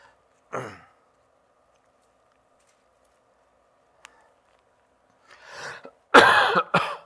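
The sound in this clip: Coughing during a sermon: a single short cough, then a long quiet pause. A breathy throat-clearing sound leads into two louder, harsh coughs close together.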